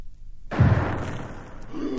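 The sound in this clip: A hand grenade explodes near a cart by a burning house: a single sudden, loud blast breaks the silence, followed by a deep rumbling tail that fades slowly.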